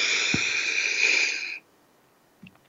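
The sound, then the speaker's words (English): A steady breath drawn in through the nose, heard as a soft airy hiss for about one and a half seconds, then near silence. “let's take a moment and just breathe. Breathe in through your nose,”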